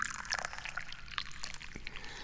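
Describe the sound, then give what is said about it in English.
Tea is poured in a faint, uneven trickle of liquid, with soft splashes and small bubbly gurgles and no talking. “The most important one of all, I'm the guy who pours and drinks the tea.”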